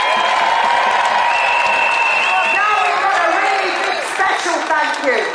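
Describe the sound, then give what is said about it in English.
Crowd applause during an outdoor freedom rally in Trafalgar Square, London. Loud, continuous clapping mixes with crowd voices and cheers, then swells again near the end. “Give yourselves a great big round of applause for being the security.”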